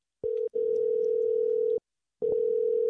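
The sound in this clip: A telephone dial tone sounds while a number is called: a steady, loud, single-pitched tone with a brief break near the start, then a pause of silence before the tone resumes.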